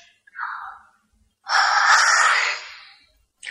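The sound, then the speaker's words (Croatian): Pinocchio's long, wide yawns imitated by a human voice: a short breathy yawn, then a longer drawn-out airy one, each separated by silence. “Gepeto je bio na daleko poznati siromah i jadnom Pinokiju nije preostalo ništa drugo nego da zijeva. Izvijao je tako duge zijevove da su mu usta katkad dopirala do ušiju.”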